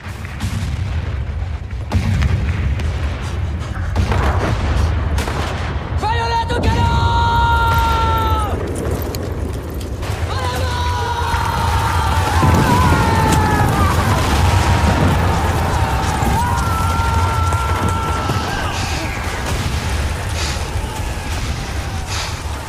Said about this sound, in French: Aujourd'hui, premier épisode, on arrive en plein assaut.